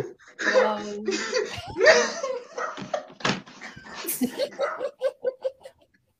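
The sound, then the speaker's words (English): Dogs whimpering and yelping: many short, high-pitched pulses that grow clearer toward the end, with laughter and vocal sounds mixed in earlier. “I feel you woke up the dogs”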